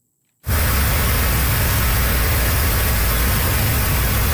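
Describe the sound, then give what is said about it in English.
Cars driving over a flooded road in southern Cape Breton after heavy rain and high winds: a short silence, then a sudden, loud, continuous rushing hiss of water spray over a low engine rumble. “motorists drive over a flooded road on southern Cape Breton.”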